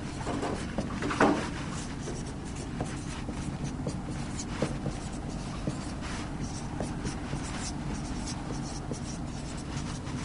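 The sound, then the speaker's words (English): Handwriting of a long enzyme name, ribulose bisphosphate carboxylase oxygenase: soft, steady scratching strokes with short pauses, faint and alone. “So let's write it out.”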